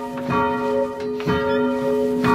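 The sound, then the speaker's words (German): A church bell rung by pulling a rope, with its swing eased before stopping: three bright strikes about a second apart, each followed by a long, ringing hum that lingers between strokes. “Vor dem Aufhören gebe ich weniger Schwung. Das ist kein schonender für die Glocke. Und es ist auch schöner fürs Zuhören.”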